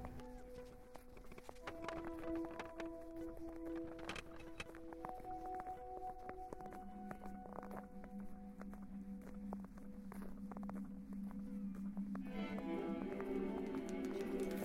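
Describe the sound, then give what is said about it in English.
A walking stick is run along metal railings, giving a long, steady stream of rapid rattling clicks mixed with sustained ringing metallic tones. “I'm running my stick along the railings. I'm listening to the sound.”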